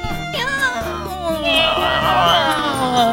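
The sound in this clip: A person's voice imitates a cat's meow in a few mewing calls with wavering, rising pitch, fairly loud, amid conversation.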